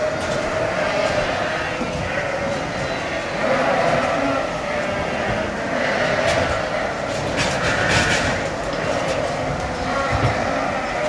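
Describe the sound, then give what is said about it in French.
Ewes jostle for places at a livestock feeding barrier, creating a dense, continuous commotion of shuffling and bleating. It stays loud and steady throughout, with a few brief swells. “Donc là, il faut imaginer une frénésie de brebis qui s'agitent dans tous sens pour trouver une place aux cornadis.”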